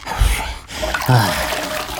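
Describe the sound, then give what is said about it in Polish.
Water sloshes in a small bucket as a boy carries it, a brief, splashy wash of liquid noise with a few soft knocks and no voices. “Nosi wodę w wiaderku.”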